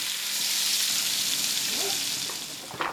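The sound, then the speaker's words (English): Fat sizzles in a frying pan with a steady, bright hiss that runs the whole time and eases off slightly toward the end, where a single small pop cuts through. “The fat sizzled in the pan.”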